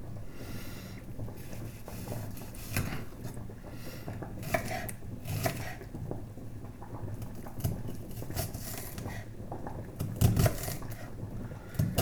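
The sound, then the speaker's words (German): A knife chops an onion into small pieces, giving many quick, irregular taps and clicks at moderate loudness with no speech. “So, jetzt brauchen wir noch die Zwiebel. Die müssen wir auch klein hacken.”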